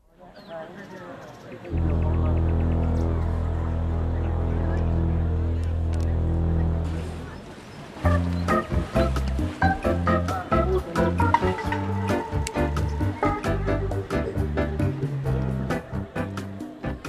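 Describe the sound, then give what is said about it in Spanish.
The jingle for the No seas basurita waste-separation awareness campaign opens with a sustained, droning chord for several seconds. It then breaks into a busy, rhythmic musical section with many punchy beats. “Bueno, así suena la sintonía, pero la campaña No seas basurita.”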